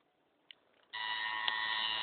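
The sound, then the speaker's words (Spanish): A delay audio effect sounding on its own with nothing being played. After near silence and a faint click, a steady, bright sustained tone rich in overtones starts abruptly and holds evenly to the end. “Ahora pongo un delay.”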